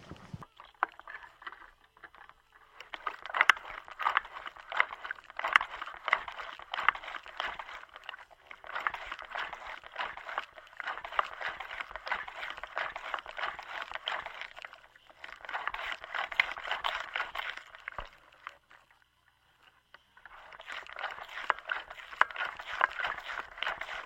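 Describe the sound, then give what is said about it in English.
Wet, squishing noise from a bicycle bounced up and down. It comes as a few long stretches of steady, icky liquid squelching, separated by short pauses. “Now I'm going to bounce on the bike, just going to bounce it up and down, see what we hear.”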